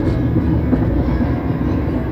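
Steady rumbling of a tram riding along its rails, a continuous low mechanical drone with a faint rolling rattle and no distinct individual events.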